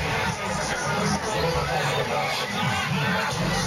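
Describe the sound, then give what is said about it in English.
Crowd of about 10,000 at New Road in Worcester, awaiting the Olympic torch while a Britain's Got Talent finalist dance act performs; a steady, dense hubbub of voices and chatter runs throughout with no clear pauses. “That's the sound of Britain's Got Talent finalist Twist and Pulse entertaining the 10,000 people at New Road in Worcester.”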